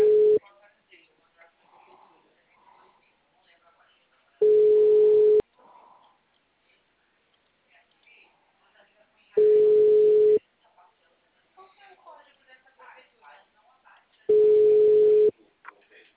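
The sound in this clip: Telephone ringback tone plays while a call waits to be answered: four steady, evenly spaced one-second beeps about five seconds apart, with faint sounds in the quiet gaps between them.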